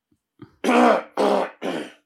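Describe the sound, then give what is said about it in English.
Throat clearing, as if bran flakes were stuck in the throat: three harsh, raspy bursts, the first the longest, each fading out, with a faint short grunt just before. “So we've got bran flakes stuck in your throat.”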